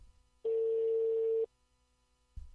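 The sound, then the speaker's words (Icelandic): A single steady, mid-pitched telephone ring tone sounds for about one second during a call placed on a sports radio show. It is followed by quiet, and a short burst of noise comes at the end. “Hér kemur hringingin.”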